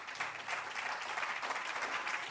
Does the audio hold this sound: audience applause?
yes